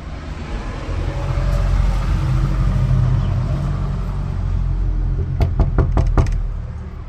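Knocks on a neighbour's front door sound as a quick cluster of sharp raps near the end, over a steady low rumble like passing traffic. No one speaks.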